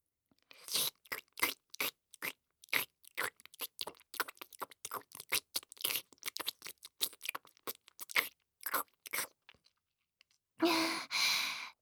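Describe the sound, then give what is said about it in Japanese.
Close-up ASMR ear licking, many brief wet clicks and smacking sounds in an irregular rhythm, quiet overall, ending with a longer breathy, sigh-like burst. “お耳を舐めさせていただきます”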